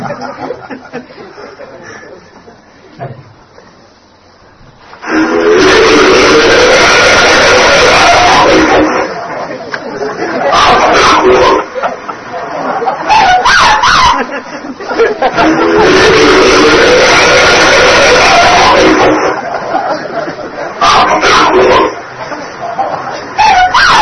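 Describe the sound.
Alleged Bigfoot vocalizations from a 1978 recording in the High Sierra of California: loud, harsh chattering and yelping calls that begin after a quieter opening and run in long, dense stretches.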